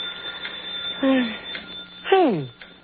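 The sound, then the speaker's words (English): A telephone ringing late at night: two short, bright ring bursts about a second apart, each falling in pitch, over a low steady hum. “That's a phone. Who could be calling this late?”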